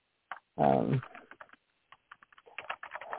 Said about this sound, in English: Sorry, I need to type like four more letters.